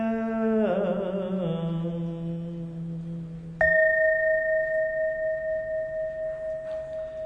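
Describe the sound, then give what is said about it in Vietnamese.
A Buddhist temple bell is struck once partway through, a sharp onset that opens into a sustained ringing tone with a slow, wavering pulse, following a steady low droning tone. “Tiếng chuông huyền diệu đưa về nhất tâm,”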